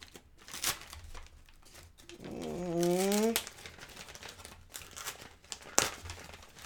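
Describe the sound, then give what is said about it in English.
Paper crinkling and tearing as a package from the mail is opened. Faint intermittent rustles surround a brief tonal vocal sound in the middle and a sharp snap near the end. “So we're going to open his package now. It came in the mail.”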